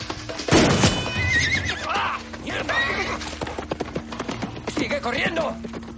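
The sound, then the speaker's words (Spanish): A horse whinnies loudly during a chase on horseback, with a sharp burst at the start and a long wavering neigh, then steady clip-clop of hooves running on through to the end. “¡Mi caballo!”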